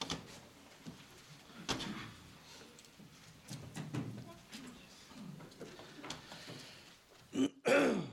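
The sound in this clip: A person clears their throat, as if something is stuck, during a Bible lesson. Quiet shuffling and soft background sounds come first, then a loud, rough throat-clearing burst near the end.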